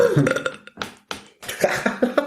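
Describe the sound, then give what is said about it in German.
A few loud, croaky burps come in quick succession with brief gaps between them, the first and last drawn out and gurgling, the middle ones short and abrupt. “Wenn du nicht rülpst, dann weiß ich immer nicht, wann zu Ende ist.”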